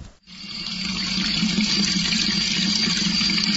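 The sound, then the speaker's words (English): Running water flows from a fountain in the old lower part of a mountain village, a steady, full splashing rush that quickly swells in and then holds even throughout. “here's the sound of water again”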